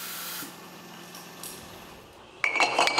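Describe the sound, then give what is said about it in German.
Glass sparkling wine bottles clink during hand filling at a small sparkling wine maker. A faint hiss comes first, then a short run of bright, ringing glass clinks near the end. “Hier in der Sektmanufaktur werden am Tag über 1000 Flaschen von Hand abgefüllt.”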